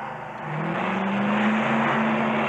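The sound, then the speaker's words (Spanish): A car engine accelerating hard, a loud, steady drone with wind-like rushing noise whose low engine tone climbs gradually in pitch, with no voices. “¡Sigue oprimiendo ese acelerador! ¡Sigue oprimiéndolo!”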